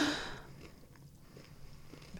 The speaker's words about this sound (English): Okay, I'm going to take a pretty hearty bite.